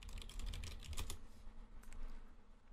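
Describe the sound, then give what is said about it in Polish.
Faint typing of a text message: quick, soft, irregular key taps run continuously and stay quiet throughout. “Piszę do Bartka.”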